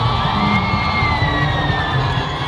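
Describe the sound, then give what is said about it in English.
Crowds at Kinshasa's Ndolo Airport cheer for Pope Francis as he arrives and waves from a specially adapted vehicle. The dense, steady roar of shouts and whoops holds throughout, and a thin high-pitched tone runs through it. “Hundreds of thousands of people welcomed Pope Francis as he arrived at Kinshasa's Ndolo Airport on Wednesday. Before the pontiff delivered a mass to the crowds, they showed their joy while Pope Francis waved to them from his specially adapted vehicle”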